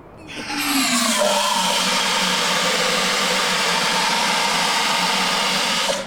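Carbon dioxide sprays from a squeezed handle outdoors over asphalt, a loud, steady hissing gush that starts abruptly, holds for about five seconds and then cuts off.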